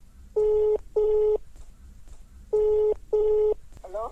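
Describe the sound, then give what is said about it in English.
Touch-tone telephone keys dial a call to Kuala Lumpur, Malaysia: four steady beeps in two pairs with a gap between them, then a short warbling tone at the end. “So I called up Auntie Veronica in Kuala Lumpur, Malaysia, to hear her story.”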